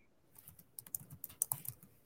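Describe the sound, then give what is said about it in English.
Computer keyboard typing as a website name is entered, a quick, uneven run of many light key clicks, faint and without talk. “What's the website name? I want it to type it up.”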